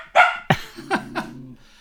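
A dog barks at a neighbour singing while walking through a village: four sharp barks in quick succession, loud and clear, the later ones over a low, sustained tonal hum.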